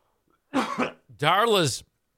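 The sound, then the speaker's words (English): A person gags and coughs. A harsh, rough cough-like burst is followed by a longer, strained, voiced retching sound, then quiet. “Excuse me, it's making me gag.”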